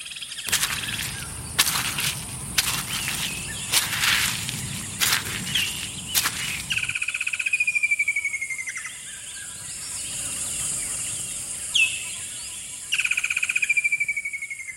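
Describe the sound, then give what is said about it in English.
Birdsong along a forest walk, with bright whistled calls that slide downward in pitch, repeated a few times in the second half, after a stretch of sharp crackling sounds over a low rustling background. “Nature Valley invites you to take a minute to re-energize with the sounds of nature, starting with this walk through the forest.”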